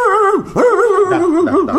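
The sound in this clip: A dog vocalising on command, with loud, wavering whines and yelps that swoop up and down in pitch in a continuous run.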